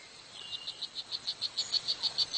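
A male strawberry poison dart frog gives its courtship call: a fairly faint, high-pitched chirping trill of more than a dozen evenly spaced pulses that grow slightly louder as the call goes on.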